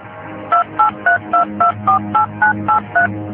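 Touch-tone dialing as a phone call is placed: ten evenly spaced electronic beeps in quick succession, each a short two-note tone, over a faint low background hum.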